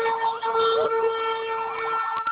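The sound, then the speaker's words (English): Emergency vehicle sirens wail continuously, with steady, piercing mid-high tones and a wavering sweep woven through them, holding at an even level from start to finish. “Hold on, guys. Got sirens. It is a madhouse down here a little bit. I can't get away from the sirens.”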